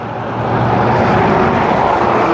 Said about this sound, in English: You can probably hear the traffic now.